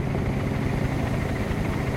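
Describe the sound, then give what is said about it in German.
A shuttle helicopter flying to a reserve gives a steady, dense roar of rotor and engine noise, loud and unbroken throughout with no pauses. “Am nächsten Morgen geht es weiter mit dem Hubschrauber-Shuttle ins Reservat.”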